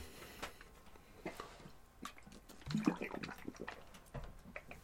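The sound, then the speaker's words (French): Someone takes a drink of water, with quiet, irregular gulps, wet swallows and small liquid squishes and no talk. “On va prendre une petite drink d'eau”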